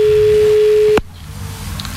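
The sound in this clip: A telephone busy signal, with both lines engaged, sounds as one steady mid-pitched tone for about a second. It cuts off abruptly with a click, leaving only faint low noise.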